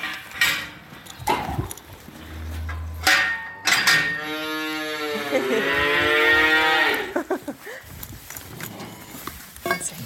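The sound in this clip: Calves moo in a calf pen at morning feeding time, as sugar beet pulp and milk powder are handed out. One long, loud, drawn-out moo stands out in the middle, surrounded by scattered clatter and rustling.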